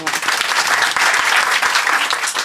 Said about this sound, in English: Round of applause for Jimmy.